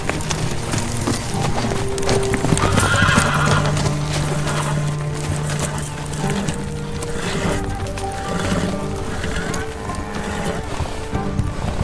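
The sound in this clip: Horses' hooves clop steadily while whinnies rise through a dense, loud mix that never lets up, as riders are helped onto their mounts and the animals are guided along.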